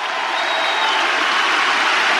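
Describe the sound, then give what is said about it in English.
A church crowd cheering and applauding during a worship praise break: loud, dense, continuous roar of clapping and voices blended into a steady wash, with a faint whistle rising briefly above it early on. “Give Jesus a great cheer today.”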